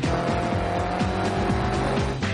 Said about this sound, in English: He's really got to put his foot down, but still be cautious on the tight corners. Quite chronic oversteer. But it's still going, though.